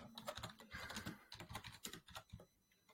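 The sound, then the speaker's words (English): Typing on a computer keyboard during a meeting: rapid, irregular clicking keystrokes, faint and close together, with a brief lull near the end before the tapping resumes. “We have to type it on now.”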